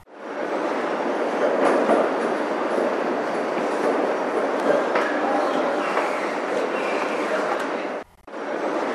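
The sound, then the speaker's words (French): Metro train running, a loud, steady rumble and rattle of carriages on the rails that continues throughout. It dips briefly near the end before resuming. “Les bruits qu'on écoute dans les métros en France et en Catalogne.”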